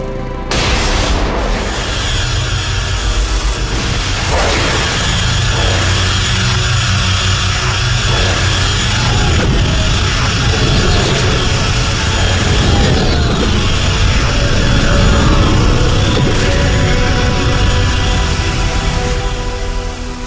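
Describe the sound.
A sci-fi sunglider beam weapon fires at the lead Korvax ship: a loud, sustained booming roar with deep rumble and hissing noise that holds steady throughout, with no voices.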